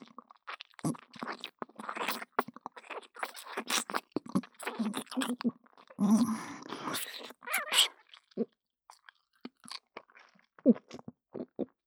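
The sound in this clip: Food being eaten, with many irregular bursts of crisp crunching and chewing separated by short pauses between bites.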